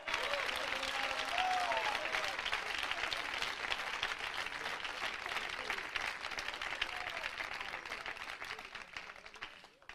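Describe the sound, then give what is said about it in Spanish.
Sustained applause from a church audience for a city mayor. Dense, loud clapping holds for the full length and tapers off at the very end, with a voice faintly audible near the start. “Hermano, ese aplauso es para el alcalde de Alexandría, ¿verdad?”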